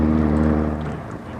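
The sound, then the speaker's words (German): A motorboat engine on the water gives a steady, low droning hum that eases off slightly toward the end, with no voices. “Halt! Da kommt einer mit dem Motorboot.”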